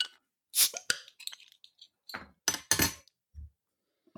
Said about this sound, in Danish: Skal vi åbne øh, flasken ja, her? lad os det. Lad os det.